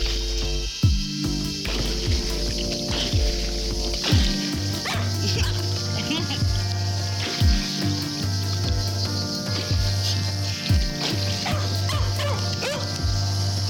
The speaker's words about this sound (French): Et la chienne s'énerve. Évidemment.